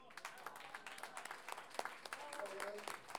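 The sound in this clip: An audience applauds at a folk poetry celebration, with faint, dense scattered clapping that sustains throughout and rises slightly toward the end.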